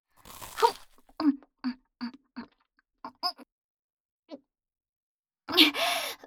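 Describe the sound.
Someone chokes on food while eating breakfast, giving a string of short, sputtering coughs and gagging bursts, then a longer, louder gasping cough at the end.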